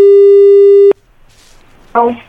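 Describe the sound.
A telephone line signal while placing a call: one loud, steady, single-pitch tone lasting about a second, then a quiet pause before a brief voice.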